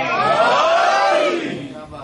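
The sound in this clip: A crowd shouts the Naara-e-Haidari slogan in unison in response to a religious sermon. Many voices rise together in one loud, drawn-out chant that fades toward the end.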